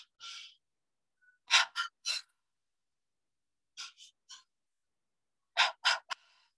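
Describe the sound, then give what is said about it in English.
Forceful breaths from a guided deep-breathing exercise, heard alone against silence: one opening puff, then three groups of quick, sharp breaths separated by quiet pauses. “So I want you to take two more patterns of breath like this, two more,”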